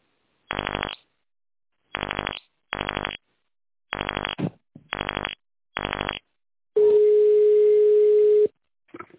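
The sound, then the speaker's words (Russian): Telephone keypad tones dial a number into an automated company phone line set to tone-dialing mode: six short, even buzzy beeps, then one longer steady tone. “Наберите нужный номер нужного вам абонента, после чего нажмите клавишу «Решетка».”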